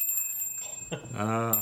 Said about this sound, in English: Oh, sorry, I'm playing with a bell.